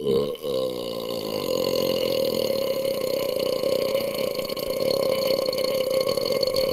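A long, sustained burp rumbles on without a break for several seconds, loud and steady with a deep, throaty texture.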